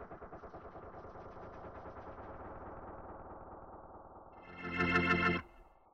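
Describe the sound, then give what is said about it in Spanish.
A gunfire sound effect of rapid, stuttering automatic shots, heavily processed with distortion and echo, running as a dense rattle before swelling into a louder, harsher burst that cuts off abruptly near the end. “Lenta y fatigosamente empuña el arma y apunta a aquellos hombres que cantan, ríen, se abrazan, enemigos en paz. Sin vacilar, comienza a disparar.”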